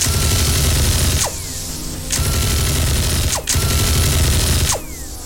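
Alien guns firing wildly, their rounds exploding across a room: a loud, dense, continuous crackle of rapid fire broken by a few brief gaps.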